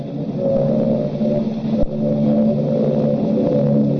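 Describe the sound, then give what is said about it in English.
Engine drone of low-flying Junkers 88 dive bombers, a loud, steady, layered throbbing hum that holds level throughout, broken once by a brief sharp knock. “I have heard that noise 1,000 times. But every time I hear it, I get sick. They're flying ruddy low, you know.”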